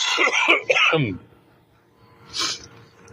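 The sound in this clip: A person coughs harshly in a tight cluster during the first second, then there is a pause and one fainter, breathy cough.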